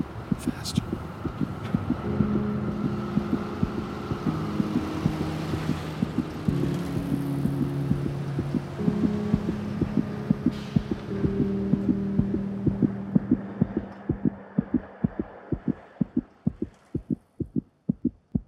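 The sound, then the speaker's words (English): A racing heartbeat: steady, deep low thumps pulse throughout, with sustained low musical tones and hum layered over the middle before the thumps continue alone at the end. “All she knew was her heart was beating faster and faster and faster.”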